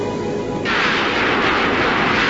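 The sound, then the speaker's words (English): Weapon fire from an automated defense satellite turned on the team cuts in as a sudden loud, broad blast-like roar after a quieter hum and holds steady and harsh to the end. “Hey! It's not supposed to fire on us! Dash! I'm on it, Crowbar. Kelsey, the automated defense satellite just fired on us again.”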